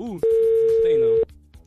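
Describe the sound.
A telephone busy tone sounds after a radio phone-in caller hangs up: one flat, steady mid-pitched beep lasting about a second, with voices talking just before and after it.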